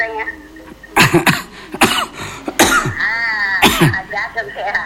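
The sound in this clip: Harsh coughing comes in several loud, abrupt bursts spread unevenly over a few seconds, with quieter throaty sounds in between.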